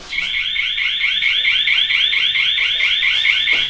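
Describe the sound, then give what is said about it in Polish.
An alarm rings continuously as a rapid stream of high-pitched electronic pulses, loud and steady from start to finish. “Jest alarm? Jest alarm.”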